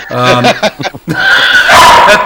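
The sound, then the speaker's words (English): A dog barks a few times in the background, sharp yips breaking up under a man's talking voice and louder at moments between his words. “I got my dog barking in the damn background, which is wonderful.”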